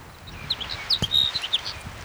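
Sparrow chirps ring out as a series of short, high, bright calls, sharp and irregularly spaced over a quiet background.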